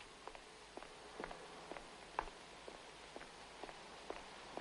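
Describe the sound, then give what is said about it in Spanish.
Footsteps of a man running from a taxi into a bar: a long series of soft, quick taps at a fairly steady pace, faint and alone without voices. “El padre de Reyes y Pedrín sale corriendo del taxi y entra en el bar.”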